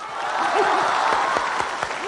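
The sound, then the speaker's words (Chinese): Audience clapping at a New Year comedy performance, a steady burst of applause that holds for about two seconds while a voice sounds over it. “您就伸出您温暖的手，为我这孤寡老人鼓鼓掌吧。谢谢，这年头就是好人多呀。”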